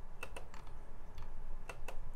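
Computer mouse clicks as a fantasy football draft pick is made in a 2018 mock draft: a few sharp, dry clicks spaced irregularly, some in quick pairs, over a steady low background hum.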